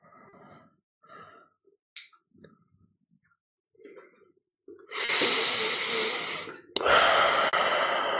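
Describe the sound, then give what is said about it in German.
Deep breathing in and out during a guided breathing exercise: a few soft, short breaths and sniffs, followed by two long, loud, airy breaths, the second slightly stronger. “Dann richte dich auf, atme noch einmal dreimal tief ein und aus.”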